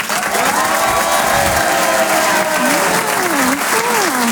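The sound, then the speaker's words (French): A comedy audience breaks into loud, sustained applause and cheering as the comedian comes on stage, with steady clapping and a few whoops riding over it. “Un maximum de bruit pour Nawel Madani!”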